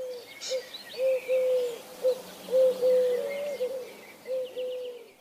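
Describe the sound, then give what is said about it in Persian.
Male pigeon cooing to court a female, puffing and dragging its spread wings: a run of many low, throaty coos in short and drawn-out phrases, moderately loud and steady in pitch, with faint higher bird chirps behind. “اون طرفتر کنار درختی کبوتر نری دور ماده میگشت، بالاشو پهن کرده بود و به زمین میکشید و در طلب جفت از بیخ گلو بغبغوی از خودرازی مغروری سر داده بود.”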